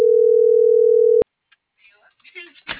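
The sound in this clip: A telephone ringback tone on an outgoing call that goes unanswered: one loud, steady, even tone holds for just over a second, then cuts off with a click. Faint rustling and muffled noises follow.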